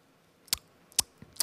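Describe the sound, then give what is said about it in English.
Beatbox tongue hi-hat: three sharp, bright tongue clicks spaced about half a second apart, with a fainter click just before the last, quiet and alone. “in Korean we say clicking your tongue, right? Yeah, clicking your tongue but with a very like a sharp sound”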